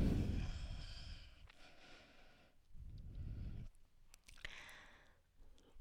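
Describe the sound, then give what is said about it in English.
Slow, deep exhales during a yoga session: a few soft, breathy rushes of air with quiet pauses between them, faint and without speech. “Breathe in. And breathe all the way out.”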